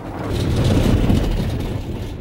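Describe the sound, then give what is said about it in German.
An old, rattling military truck driving in Burma produces a steady, low engine rumble with a constant, broad drone that stays even in loudness for about two seconds. “Mit einem alten, klapprigen LKW versuchen die Militärs in Burma in den Süden des Landes, in die am schlimmsten verwüsteten Gebiete vorzudringen.”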